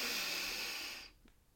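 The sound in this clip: A deep inhale during a calming breathing exercise: one long, airy rush of breath lasting about a second, then fading into near silence.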